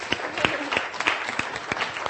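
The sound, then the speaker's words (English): Audience applause at a group session where people share their goals: sparse, evenly spaced claps in a steady rhythm, fairly loud, with no clear speech over them. “Give a round of applause.”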